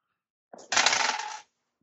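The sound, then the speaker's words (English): Percentile dice rolling on a table: a short clatter with a light first tap, then about a second of dense rattling and tumbling that stops abruptly. Nothing else is heard. “Oh. Both zeros is probably the worst roll I could have.”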